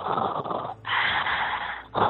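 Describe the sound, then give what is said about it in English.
A voice imitates a film villain's mechanical respirator breathing, making slow, raspy, wheezing breaths: a long breath, a short pause, a longer one, then the start of another. “my other honorable mention is Darth Vader's breathing. This is another iconic sound effect”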